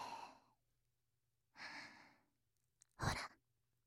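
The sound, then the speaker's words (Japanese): Breathing close to the ear: three soft, airy breaths like gentle sighs, separated by silence, the last preceded by a tiny click. “耳元にまで近づいちゃいました。私の息遣いが聞こえてきて、本当に近くで話しかけられてるみたいですよね。”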